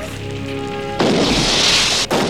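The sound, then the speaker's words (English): The control panel of a crashed, smouldering plane ignites and explodes in a sudden loud burst of broad roaring noise. It cuts in after a steady low tonal hum, sustains, dips briefly and then surges again. “Sections of the control panel ignite and explode.”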